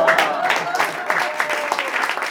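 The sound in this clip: Audience applause at a live intimate concert: dense, steady clapping that fills the whole clip at an even level, with a faint sustained tone running beneath it.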